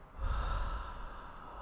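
A slow, deep exhale during a guided breathing exercise: a soft, airy rush that swells quickly, holds steady, and then tapers gently over about a second and a half.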